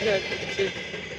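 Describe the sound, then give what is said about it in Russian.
Train wagons roll past in a steady, continuous rumble, with a few faint squealing tones riding on the noise. “это что, стак вагонов проехал?”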